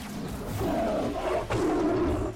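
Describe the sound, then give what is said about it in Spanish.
A tiger roar: a loud, sustained, rough roar that fills the whole clip, with a brief dip near the middle before a second strong surge. “es, entre comillas, un rugido de un tigre.”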